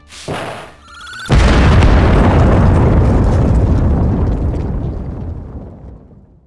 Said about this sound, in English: did a pine cone just suicide bomb me?